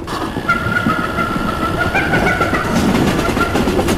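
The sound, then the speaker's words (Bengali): Train running along tracks beside a jungle, a steady loud rumble with faint clatter and a sustained high-pitched whine riding over it throughout. “ট্রেনে করে জঙ্গলের পাশ দিয়ে ছুটে চলেছি”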